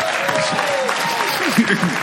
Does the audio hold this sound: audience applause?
yes